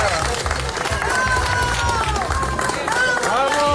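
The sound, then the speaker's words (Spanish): Applause and cheering from a crowd for Spanish UME rescue workers after a survivor was pulled alive from rubble in Baruta, southeast of Caracas. Dense, steady clapping runs throughout, with voices rising over it. “Aplausos al personal de la UME desplazado al país latinoamericano después de recuperarlo.”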